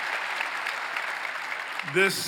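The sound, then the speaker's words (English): Applause from a church audience welcoming those joining in: continuous, evenly textured clapping from many people, with a brief voice rising out of it near the end. “Let's put our hands together and welcome everybody that's joining in with us.”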